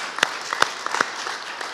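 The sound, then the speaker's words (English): Audience applause for a speaker at an event: a soft, continuous patter of many hands, with a few sharper, louder individual claps standing out, and no talking. “Let's give Trey one more round of applause.”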